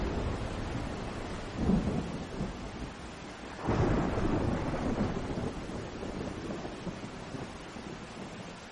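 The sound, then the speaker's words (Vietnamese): Heavy rain pours in a steady, dense hiss throughout, with two deep rumbles of thunder rolling through it. “nhưng bất chợt có từng giọt mưa rơi xuống nặng hạt, dần”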